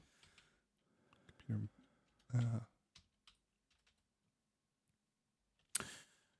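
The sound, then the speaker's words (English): Typing on a computer keyboard: faint, sparse key strikes and clicks with long gaps between them, a few louder taps standing out. “oh man, I've typed it so many times. I gotta just type it out. Muscle memory.”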